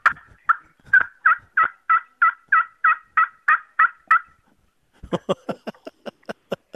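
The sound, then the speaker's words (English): Turkey calling: a steady, evenly spaced run of about a dozen loud yelping notes, then after a short pause a quicker series of sharper, clipped notes that weaken toward the end. “But yes, that sound means it is getting close to turkey time. You have been working on your skills.”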